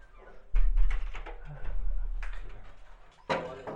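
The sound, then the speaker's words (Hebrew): A door is pushed shut with a heavy, dull thud, followed by lower rumbling and scraping, then another sharp knock near the end. “אני אסגור את הדלת”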